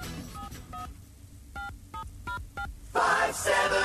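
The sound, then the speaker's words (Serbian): Digital telephone touch-tone dialing opens a song: six short beeps at an uneven pace, followed by the music entering loudly. “Tako se nekad čulo kad birate brojeve na telefonu digitalnom.”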